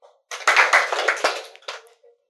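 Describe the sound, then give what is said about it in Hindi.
A short flurry of audience hand clapping at a spiritual gathering: loud, bunched claps burst in, continue for about a second, then a final smaller burst trails off into silence. “ताली बजाने आए, 2 बोलना नहीं है, ताली बजाओ।”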